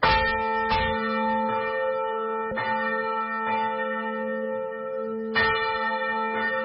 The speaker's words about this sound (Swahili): kengele hiyo ambayo inawatolea wito waumini wa dini Katoliki kuitikia ibada ya sala inaendelea kusikika katika makanisa Katoliki ya maeneo yote ya nchi ya Burund